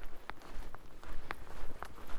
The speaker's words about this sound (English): Right, let's roll, let's find that trail and let's put our feet one in front of the other on it. Because that's called walking.